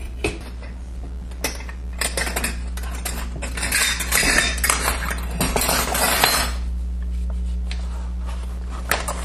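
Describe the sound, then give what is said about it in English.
Utensils clink and scrape against a bowl as dry ingredients are mixed, with many irregular light metallic taps over a steady low hum, busiest in the middle of the stretch. “Now, in a separate bowl, we're going to mix together our dry ingredients.”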